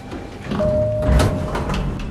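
Elevator doors slide open with a low mechanical rumble and a steady sustained tone through the middle of the movement, fairly loud and without speech.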